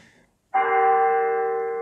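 A church bell rings for holy mass: one clear, loud strike with a sharp onset and a sustained ringing tone that slowly fades.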